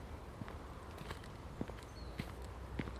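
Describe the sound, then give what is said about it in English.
Footsteps of someone walking through a local cemetery, faint and regular at a steady, unhurried pace over low background noise. “So, just having a walk in the local cemetery today.”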